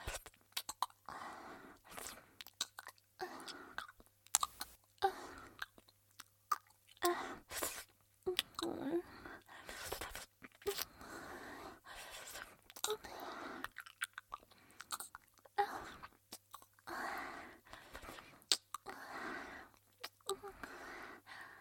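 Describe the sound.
Soft, wet chewing of chicken by a person, with squishy, moist mouth sounds coming in uneven bursts throughout, fairly quiet.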